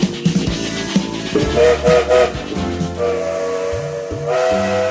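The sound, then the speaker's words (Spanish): A steam train whistle sounds in several blasts of shifting pitch over hissing steam as the train starts moving, loud and without talk. “Aquí el tren ya se pone en movimiento”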